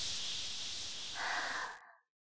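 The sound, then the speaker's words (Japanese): A faint, slow breath during a guided breathing exercise, heard alone as a steady airy hiss for about two seconds before it stops abruptly. “吸って、吐いて、”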